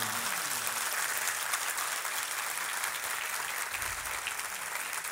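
Audience applause, dense and steady clapping from many hands that carries on evenly from start to finish without pause.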